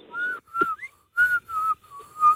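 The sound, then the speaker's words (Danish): Whistling made by drawing air inward rather than blowing out: a series of short, clear whistled notes at a fairly steady high pitch, separated by brief gaps, with one quick upward glide early on. “Det bliver en meget kort fløjten.”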